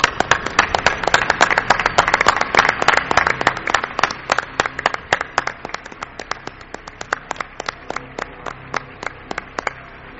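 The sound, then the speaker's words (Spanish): Audience applause: dense, loud clapping from a crowd that gradually thins into fewer, more separate claps over about ten seconds. “Yo también quiero ese aplauso, ¿no?, para otra pata importante de la nave del misterio.”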